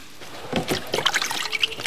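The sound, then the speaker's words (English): Water trickling and splashing in small, quick bursts as someone washes their hands, a brief run of light irregular splashes. “Do you want to wash your hands?”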